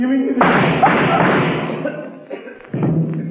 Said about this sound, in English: So, Kelvin... You shot Berger and added murder to your other crime.